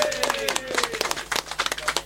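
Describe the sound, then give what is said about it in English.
Scattered applause from a small group thanking a departing guest, a sparse run of sharp individual claps of uneven rhythm, with a voice speaking alongside. “Yeah, round of applause.”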